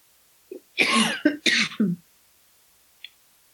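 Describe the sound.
Coughing from a tickle in the throat comes as a tight cluster of a few harsh, fairly loud coughs, preceded by a small throat sound and followed by a faint brief click after a pause.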